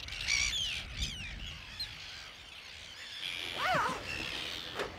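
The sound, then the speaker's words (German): Harsh, shrill calls of Arctic terns at a coastal breeding colony, many overlapping cries rising and falling throughout over a steady low background rush. “Wir gehen jetzt durch die Brutkolonie von den Küstenseeschwalben.”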